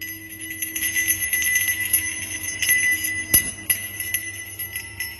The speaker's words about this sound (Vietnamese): Bây giờ thầy bắt đầu rung chuông.